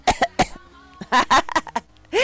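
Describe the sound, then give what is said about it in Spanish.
A person coughs: a series of short, harsh bursts come in quick clusters, separated by brief pauses, with a loud final burst at the end. “Mi chula, mire, tengo tos.”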